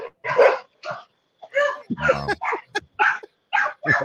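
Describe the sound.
Dogs that have just been let out bark loudly: many sharp, irregular barks and yips in quick bursts, separated by short gaps.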